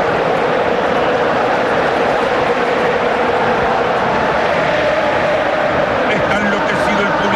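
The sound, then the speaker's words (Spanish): A stadium crowd roars as the Jordan team walks out, a steady, loud, dense wash of cheering that holds for several seconds while voices talk over it. “Escuchen el público.”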